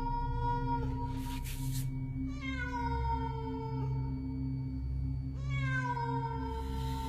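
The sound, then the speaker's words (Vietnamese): A cat in a small village at night wails mournfully, giving a few drawn-out meows whose pitch sags downward, over a steady low drone. “Lúc này mơ hồ có tiếng con mèo, nó kêu lên thê thiết, vọng đi khắp cả thôn nhỏ.”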